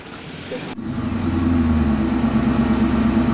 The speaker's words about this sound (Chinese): 感觉像船一样 啊，非常颠簸。这就是有名的搓衣板路啊， 搓衣板路 啊，坑坑洼洼的啊。